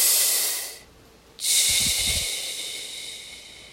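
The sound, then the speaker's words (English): Breathing through a snorkel while floating in the ocean: a loud, hissing breath, a short quiet gap, then a second long airy breath with brief low gurgles that slowly fades. “All I can hear, and it's almost amplified by my snorkel, you know, going from my mouth past my ear up to air, I can hear my breath just”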